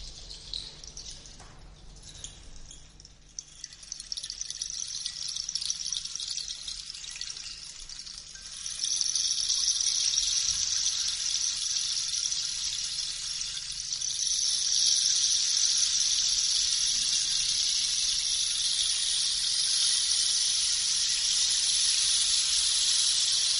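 Rain and running water make a steady, soft hiss. It grows louder about a third of the way through and stays even until the end.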